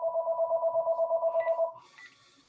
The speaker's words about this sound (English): sorry that my phone is ringing there. We'll just hang up.